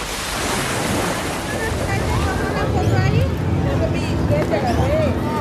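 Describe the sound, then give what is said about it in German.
Pacific Ocean waves wash onto the beach beside a wooden pier at Santa Monica, a constant, loud roar of surf with buffeting wind and faint voices mixed in. “Das Riesenrad auf dem hölzernen Pier am Strand ist das Wahrzeichen von Santa Monica, mit Blick über den Sand und den Pazifik.”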